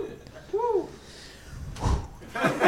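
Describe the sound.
Car doors being locked, played as a guessing-game sound clue: a short tonal chirp, then two solid thuds spaced apart near the end.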